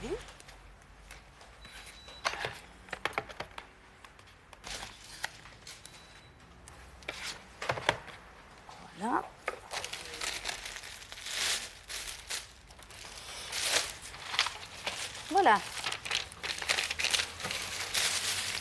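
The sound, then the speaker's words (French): Medication label stickers being peeled and stuck down in a doctor's practice: quiet, scattered crinkles, rustles and short ripping squeaks, with faint voices in the background. “alors je vous colle les vignettes”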